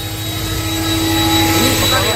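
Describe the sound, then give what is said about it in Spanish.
A Stihl BGA 60 battery-powered electric leaf blower runs at full power. It makes a loud, steady, jet-like roar with a thin high whine on top and no breaks. “Sí, es el soplador. Es el eléctrico. El soplador BGA60,”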